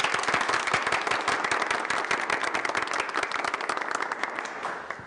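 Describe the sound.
An audience at a company gathering bursts into dense, sustained clapping, many hands beating rapidly and evenly, holding steady before easing slightly at the end.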